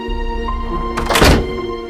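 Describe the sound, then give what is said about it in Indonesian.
A locked door gives one heavy, dull bang as it is pushed against its lock, a single loud thunk standing out over a faint steady background hum. “pintunya itu pintunya kekunci kayak, kayak ada dorong pintunya tuh gebrak kayak kayak, kayak gitu”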